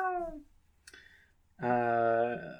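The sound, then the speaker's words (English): A pet cat meows twice: a short call at the start, then a long, loud, sustained meow with a steady tone that trails off at the end. “That's my cat.”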